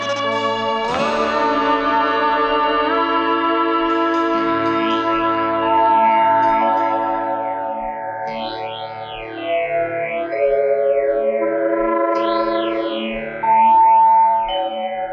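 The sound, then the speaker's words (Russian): An electronic spaceship landing effect sounds as a craft descends onto the second planet of a star system: sustained synthesized tones with echoing shimmer and repeated warbling up-and-down sweeps, loud and steady throughout, with no speech. “Вторая планета системы Медуза. Идем на посадку.”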